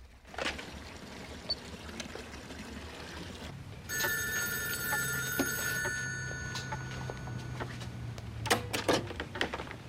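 A telephone handset lifted and a call dialed: a steady electronic tone holds for about two seconds, then a few sharp clicks follow, over a faint trickle of running water from a bath.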